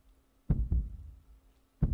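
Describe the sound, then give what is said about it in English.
Heartbeat: low, dull thumps heard alone with no talk, a quick pair of beats followed after a pause by a single beat. “the only thing you can hear as you do this is the sound of a heartbeat.”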